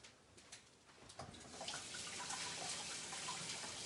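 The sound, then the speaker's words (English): Tap water runs as something is rinsed off under it, a steady hiss that swells and thickens after about a second and then stays even, with no talking. “So I'm just rinsing it off here.”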